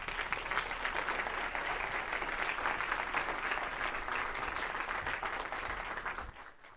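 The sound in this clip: Church audience applauding to welcome a woman speaker at Cornerstone: a thick, even wash of clapping that stays full and steady for about six seconds before fading away.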